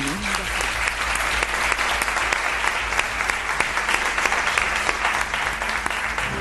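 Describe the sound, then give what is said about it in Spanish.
Applause on a radio program rings out as a continuous, dense patter of many hands, loud and even throughout without pauses or voices over it. “Un aplauso.”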